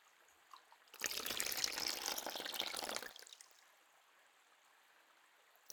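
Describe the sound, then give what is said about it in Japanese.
Running warm water pours over hair to rinse off sweat during a hair wash, a faint steady splashing for about two seconds that then thins to a quiet trickle, with no talking. “髪を濡らしながら汗を落として、”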